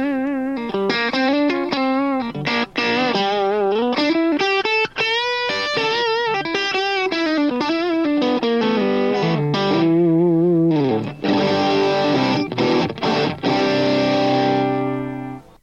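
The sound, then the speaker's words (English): An electric guitar played through a Wampler Ace 30 amp is set for a Brian May style tone. Distorted, harmonically rich melodic lines with sustained, singing notes play loud and continuous throughout. “That's the Brian May sound off the 30 something, or formerly known as the Ace 30.”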